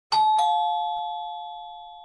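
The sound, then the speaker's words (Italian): A doorbell sounds a two-note ding-dong at the door, the second strike following quickly after the first, then the bright tone rings on and slowly fades. “Si sente suonare alla porta.”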